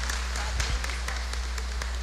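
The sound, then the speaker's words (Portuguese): Clapping for the children at a church service: even, rhythmic claps over a constant low hum, fairly faint throughout. “Uma salva de palmas para as nossas crianças.”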